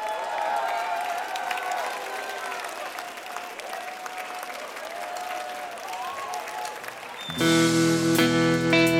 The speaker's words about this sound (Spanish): Por favor, un aplauso que se caiga hasta abajo para recibir a Nat Simmons.